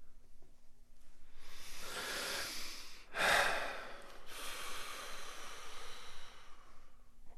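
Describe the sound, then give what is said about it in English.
Deep breathing: slow, airy inhales and exhales, quiet and breathy, with one sharper, louder breath partway through. “Breathe more deeply.”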